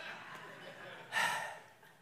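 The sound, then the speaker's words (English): A man who is out of breath lets out one sharp, breathy exhale that trails off. It is quiet and faint, with soft breath noise before it. “for some reason, I'm out of breath.”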